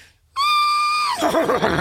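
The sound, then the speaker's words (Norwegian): A person imitates a horse's neigh: one loud, steady, high, nasal cry that breaks into a lower, wavering whinny-like warble at the end. “Kan du høres ut som en hest?”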